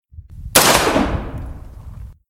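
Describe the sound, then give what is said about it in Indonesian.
A single loud gunshot cracks out sharply after a low rumble, then decays in a long, fading tail. “peluru itu menembus jantungnya.”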